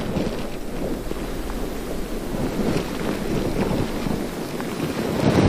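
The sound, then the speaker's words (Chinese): Strong typhoon wind roars at the coast of Zhejiang during landfall, a loud and unbroken rush with a rain-like hiss and buffeting gusts, and no voices. “今年第13号台风白海豚以强台风级登陆浙江玉环沿海”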